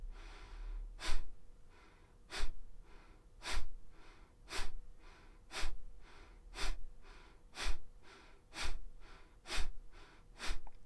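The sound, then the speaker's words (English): Fast, rhythmic breathing during a breathing exercise: a steady series of sharp, evenly spaced breaths, each a short breathy rush of air, repeating at a quick pace. “Now we're going to increase the speed of the breath.”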